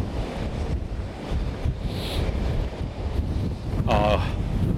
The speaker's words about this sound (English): I'm actually going to get onto the main seafront bit now. I've been a little remiss with this. I need to get into the wind.